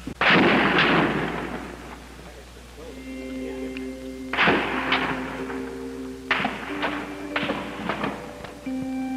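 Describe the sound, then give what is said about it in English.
Gunfire from a clock tower deck on a hot Texas day, with bullets striking the top of a wall: several sharp, loud bursts at irregular intervals, with a fading tail after each. “Bullets bouncing off the top of the wall. It is chilling to see this footage. The puffs of gun smoke floating from the deck of the clock tower,”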